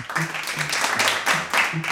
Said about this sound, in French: Je crois qu'on peut vraiment vous applaudir.